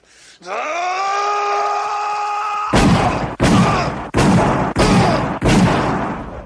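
Gunfire as a gun's clip is emptied: five loud, sharp shots at a steady pace, each cut off abruptly. A long, sustained wailing tone comes before the shots.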